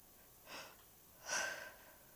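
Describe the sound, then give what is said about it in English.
Two airy breaths taken by a man alone: a short, soft breath first, then a longer, louder, deeper breath with a gasping edge. “You heard the breath I took. That's when the spirit is leaving me.”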